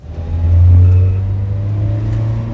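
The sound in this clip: A car engine revs up as the vehicle pulls away, then settles into a steady mid-pitched hum. No voices are heard.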